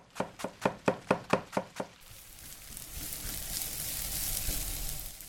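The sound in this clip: Cooking at home begins with a quick, regular run of sharp knocks, like a knife chopping on a board. A steady sizzle of food frying in a pan then takes over and grows slightly louder.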